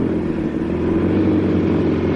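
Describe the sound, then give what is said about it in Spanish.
Two motorcycles ridden by police officers move along a lonely road, making a steady, droning engine rumble with a low hum that holds at an even loudness throughout. No voices. “dos guardias civiles llegan en sus motos por una solitaria carretera.”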